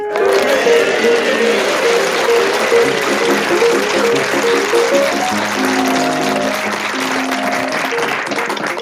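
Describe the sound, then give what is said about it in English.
Chopin's Minute Waltz plays as theme music, a quick piano melody mixed with steady audience applause, easing off slightly toward the end. “as the minute waltz fades away, it's my absolute pleasure to welcome you to Just a Minute”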